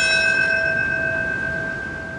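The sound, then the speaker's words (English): A solemn bell toll at the World Trade Center on September 11, rung by a firefighter: a single struck note with bright, ringing overtones that hang and slowly fade over a couple of seconds, with no voices. “My specific job is to toll the bell at the proper time in history.”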